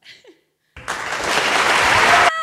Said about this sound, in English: You have to get crowd applause buttons.